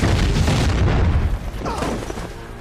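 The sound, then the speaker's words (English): Mortar fire explodes across a battleground as a loud, deep, roaring boom that rumbles heavily for over a second, then drops to a lower, rough, lingering rumble. “Mortar fire rips through the battleground.”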